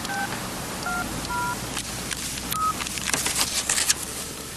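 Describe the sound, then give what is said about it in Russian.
Touch-tone beeps from a car telephone being dialed: a few short electronic tones in quick sequence, followed by faint crackling line hiss. “Чарли берет трубку телефона, установленного в салоне машины.”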